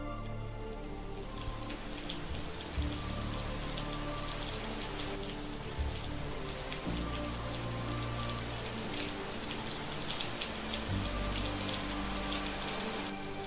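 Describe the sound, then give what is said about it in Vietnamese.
Heavy rain from a thunderstorm pours down around a flimsy temporary house, a dense, continuous patter and hiss of drops drumming on surfaces, steady and fairly loud with no pauses. “Cảm giác như là căn nhà tạm của chị đang oằn mình trong cơn mưa giông, sẵn sàng đổ sập bất kỳ lúc nào.”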